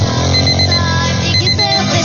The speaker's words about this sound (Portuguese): Vamos, 6h20, ó o relógio despertando, ó.